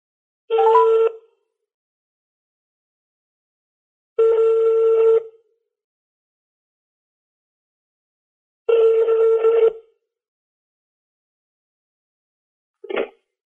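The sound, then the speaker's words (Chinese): Telephone keypad tones sound as an international call from the United States to China is dialed: three long, even electronic tones spaced well apart, then one brief tone at the end, with no talk. “好，我现在开始拨号了啊。”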